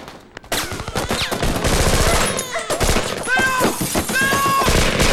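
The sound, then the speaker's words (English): Heavy gunfire and a huge explosion in a film action scene, with a sudden loud burst that becomes a dense, continuous roar of rapid shots and blasts until the end. “They run for it. Luke shoots at Theo. There's a huge explosion”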